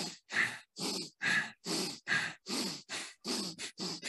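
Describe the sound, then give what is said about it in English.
Rapid belly breathing through the nose, part of a kundalini yoga exercise, comes as a long run of short, evenly spaced breathy puffs. Each is fairly soft, with a rhythmic in-and-out beat and no talk over it. “So focus on inhaling and exhaling through the nose and we start in a slow pace. I'll just show it and then I'll go a little faster.”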